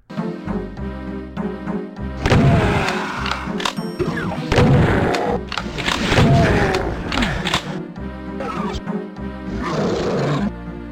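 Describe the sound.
Super shotgun blasts tearing into imps in a 90s PC video game: several heavy, booming shots mixed with snarling, roaring creature cries over steady background music.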